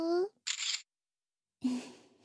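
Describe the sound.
A camera shutter takes a photo: one short, sharp mechanical snap in a brief silence between spoken phrases.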